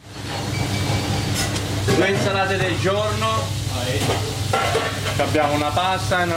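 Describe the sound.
Guanciale fries in a pan for carbonara in a busy restaurant kitchen in Geneva, giving a steady crackling sizzle that runs beneath a speaking voice.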